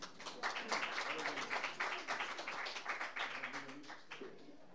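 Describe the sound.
Applause from an audience welcoming a singer and her accompanist at a live music event. Many claps form a dense, steady patter that stays loud and even, then thins slightly toward the end.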